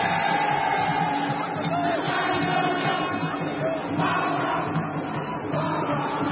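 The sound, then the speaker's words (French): A football stadium crowd chants as one dense, loud roar of many voices, sustained evenly throughout. “Espérons que les chants du public l'aident dans ce moment délicat.”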